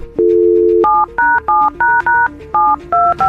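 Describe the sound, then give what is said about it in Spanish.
Touch-tone keypad beeps as a cell phone number is dialed for a call on a morning radio show: a steady dial tone first, then a quick run of short two-pitch beeps separated by brief gaps. “Desbloqueen la llamada de la línea número 9. Sale, vamos a marcar.”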